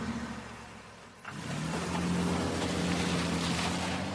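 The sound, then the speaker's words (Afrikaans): A car drives along as its engine gives a low, steady rumble, moderately loud, with a brief dip near the start before it settles into an even hum. “Troos Adele en sy en haar mamma ry na Wendy se huis toe.”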